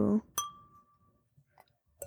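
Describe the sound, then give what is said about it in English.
Wine glasses clink together in a toast: a brief voice, then one sharp clink whose clear ringing tone fades over about a second, followed by a few faint light taps. “Did you mess up drinking? I was trying to get mine to clink like yours. Oh. Yeah, I have very long nails, so it makes a very beautiful sound.”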